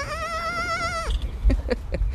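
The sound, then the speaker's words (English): A goat in a pen lets out one long, wavering bleat, where a three-day-old kid is nursing on its mother. Soft knocks and rustles follow once the cry ends. “leaps down into the goat pen to help a 3-day-old baby goat nurse on the mama she calls Bambi”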